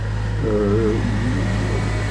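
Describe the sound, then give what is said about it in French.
A car drives past as a steady low engine hum and road drone, holding an even loudness throughout with a faint tonal whine rising in the middle. “On va laisser passer la voiture.”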